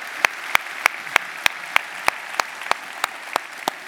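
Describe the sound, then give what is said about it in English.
Rhythmic applause from a church audience welcoming its teams and campuses, with many sharp, evenly spaced claps landing on a steady beat over a soft wash of crowd noise. “Hey, let's welcome all of our teams, all of our campuses. Let's give them a hand.”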